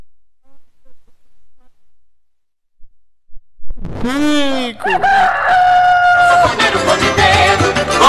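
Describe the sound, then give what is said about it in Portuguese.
A rooster crows loudly after near silence. The long, harsh call arches up and down in pitch, and more crowing follows. “Olha o galo cantando”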